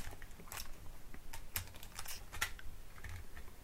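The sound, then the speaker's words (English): A cassette tape being flipped in a tape recorder gives a few faint, sharp plastic clicks and light clatter, spread unevenly over a few seconds. “Okay, hold on just a second. I'll flip this tape.”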